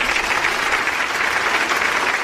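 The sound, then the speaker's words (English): Audience applause, a dense, steady wash of clapping that stays even in loudness throughout the short stretch, with no voices standing out. “And another round of applause for them for their first win over Antigo in over 6 years.”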